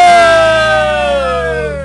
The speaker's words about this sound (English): Oh! It's the Bedard siren!